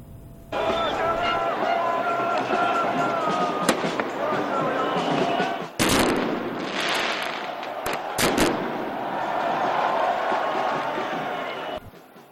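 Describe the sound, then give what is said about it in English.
Street clashes between police and protesters in Paris, during nationwide rallies against pension reform: a dense, continuous crowd roar with shouting voices, broken by several sharp, loud explosive bangs. “And the French capital, Paris, clashes erupt between police and protesters amid nationwide rallies against the government's unpopular pension reform plan.”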